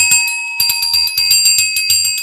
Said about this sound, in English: I don't know if this is a question on here, but I have a bell ringer.